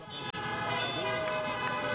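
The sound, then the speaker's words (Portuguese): Car horns honking as football fans celebrate their club reaching the semifinal: sustained, loud horn tones over traffic noise, with one brief break near the start. “Buzina que o Grêmio tá na semifinal!”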